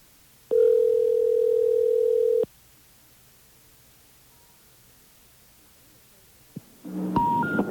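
Telephone line tones as a 920 area code number with the same last four digits is dialed: a steady mid-pitched tone lasting about two seconds, a long quiet stretch, then a short burst of higher tones at the end.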